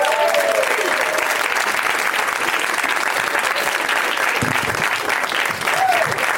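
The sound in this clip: Audience applause at a UCB comedy show as four guests are welcomed to the stage: dense, steady clapping that holds at an even level for the whole stretch, with a brief voice at the start.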